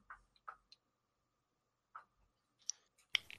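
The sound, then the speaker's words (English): Dice dropped during a Warhammer Fantasy Roleplay tabletop session, heard as a few sharp, faint clicks and clatters scattered over a quiet background, with a final cluster of louder ticks near the end. “Oh god, I dropped my dice.”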